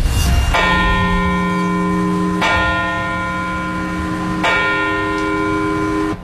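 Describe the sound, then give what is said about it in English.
Church bell tolling at a memorial in Parkville, Baltimore County, marking the 25th anniversary of the September 11 attacks: three slow, evenly spaced strikes, each with a long, humming ring. “those bells tolling at the exact times the two planes hit the Twin Towers”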